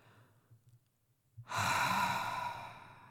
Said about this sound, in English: Take a deep breath in.